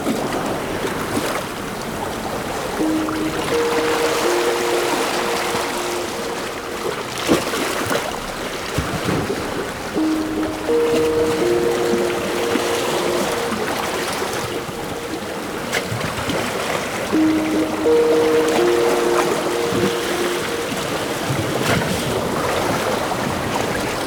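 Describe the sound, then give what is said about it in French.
Sea waves wash in a steady, broad roar with gusts of wind. A faint tonal call recurs every several seconds over the surf. “Voici celui de la mer.”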